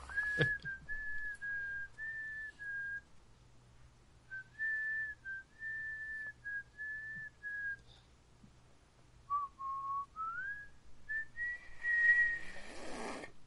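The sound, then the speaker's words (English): A person whistles an unsteady, off-key tune in several wavering phrases separated by short pauses. The pitch slides and wobbles, and a burst of noisier, breathy whistling comes near the end. There is no talking. “You're shit at whistling.”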